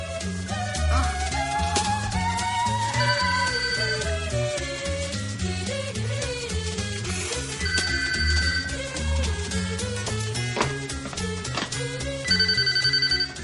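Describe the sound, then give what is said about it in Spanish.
A telephone rings in an apartment bedroom, its high bell tone coming back in a few repeated bursts beneath loud, continuous dramatic music; no voices. “Va a la alcoba y coge el teléfono.”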